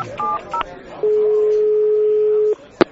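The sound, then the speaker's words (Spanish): Telephone number being dialed: two short keypad tones, then one long steady tone of about a second and a half, ending in a single sharp click. “¡Llámale! José María, sigues igual. Ya le llamo yo.”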